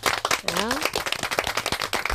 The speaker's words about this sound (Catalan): Un aplaudiment per ells.